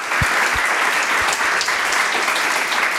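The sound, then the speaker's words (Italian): Applause breaks out for a group of young entrepreneurs from Genoa, a bright, steady patter of many hands sustained throughout, with a few low thumps scattered through the first half. “un applauso, dai ragazzi”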